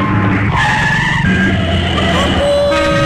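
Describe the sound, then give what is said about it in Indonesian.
A car speeding past with tires squealing, a loud, continuous engine roar and skidding whine that fills about three seconds without talk. “Laju amat keretanya tadi.”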